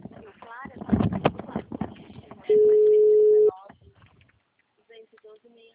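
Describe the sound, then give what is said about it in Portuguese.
A single steady telephone tone of about one second sounds while a call is placed. Voices talk just before it, and faint sounds follow. “Aqui, já tô ligando.”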